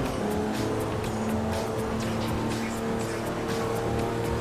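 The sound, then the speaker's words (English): Engine of an S63 car driven around in a video game's free-roam mode. The drone is steady and continuous, with no talk over it. “I'm gonna see how fast this thing is. I'm gonna just drive around, see.”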